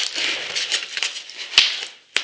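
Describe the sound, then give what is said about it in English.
A detaper tool scrapes along the packing tape on a box holding a stacked statue packed in styrofoam, giving a continuous rasping scratch and then two sharp, distinct clicks near the end. “So we've got our handy dandy detaper tool here. And we're just gonna gently go around the edges of where the tape is.”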